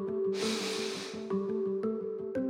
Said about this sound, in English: It starts with an inhalation.